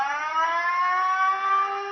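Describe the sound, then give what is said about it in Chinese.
A police drill warning siren in Hualien County, sounded as a barrier lake alert ahead of a typhoon: a loud, steady, harmonic-rich wailing tone that holds its pitch throughout, with no talking. “花莲县警方演练播放警报”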